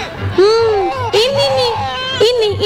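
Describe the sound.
A baby cries at home in loud, drawn-out wails with wavering pitch, three main cries in a row, over soft repeated low thumps.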